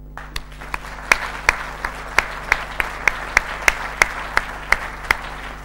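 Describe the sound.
Audience applause welcoming a lecturer at a talk: a dense, steady wash of clapping, with sharp individual claps standing out at a fairly even pace throughout.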